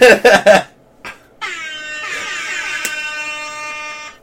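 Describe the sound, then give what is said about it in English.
Air horns blare, first as three short, loud, brassy blasts, then after a brief pause as one long sustained tone that holds steady to the end. “Just 3.5 minutes of air horns.”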